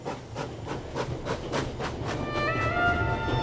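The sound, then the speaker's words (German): A train travelling on rails through Germany rumbles steadily with regular, evenly spaced clicks, and thin high tonal whines join in during the second half. “Ich reise in Zügen, die durch Deutschland fahren.”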